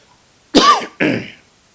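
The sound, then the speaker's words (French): A person coughs twice in quick succession, loud and alone against near silence. The first burst is harsher and rougher, the second a looser, breathier hack that trails off. “M'excusez, c'est naturel, il faut tousser.”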